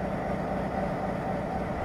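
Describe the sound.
Idling diesel freight train engines give a steady, unbroken low rumble that holds an even level throughout.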